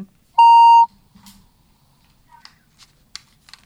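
A single steady electronic beep announces an incoming phone call: one bright, sustained tone lasting about half a second, followed by a few faint clicks.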